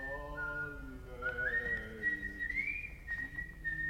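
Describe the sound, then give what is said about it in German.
A man whistles a wavering melody, clear and continuous, with the tune drifting upward partway through and holding steady at a fairly loud level. “Und plötzlich pfiff er sogar.”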